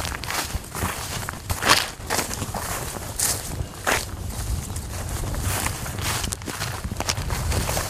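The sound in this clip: Footsteps of people walking uphill across a mountain pasture make a steady, unbroken run of many soft steps, with a few sharper, louder ones.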